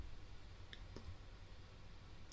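Two faint taps on an iPad screen while opening a PDF file, short soft clicks close together over a steady background hiss.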